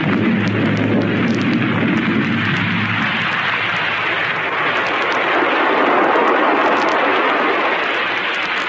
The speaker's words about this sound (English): But now let's pick up our story in the rocket ship of Kane and Ardela.